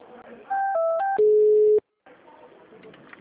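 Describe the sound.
Telephone line tones as a call is transferred: a short run of stepped beeps switching between two pitches, then one long steady tone lasting about half a second, followed by a gap and faint line noise.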